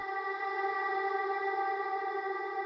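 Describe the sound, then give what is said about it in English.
A sustained, steady harmonic tone drenched in impulse-response reverb from an Altiverb plug-in, which applies the echo of a real space. It holds evenly and fairly loud throughout, with a diffuse reverberant wash and no pauses. “altiverb which is an impulse response reverb which um, essentially allows you to use the echo of a real dimensional space on any sound”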